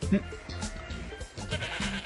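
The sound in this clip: Goats and sheep bleating, a few short, wavering animal bleats heard amid other sounds.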